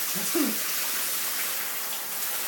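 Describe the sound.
Water sprays in a continuous broad hiss that stays steady throughout, with a brief vocal sound near the start.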